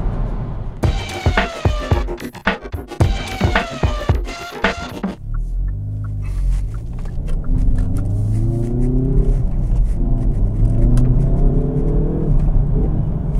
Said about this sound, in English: Listen to that four-cylinder fruitiness I do like the fruity sound of a four-cylinder engine.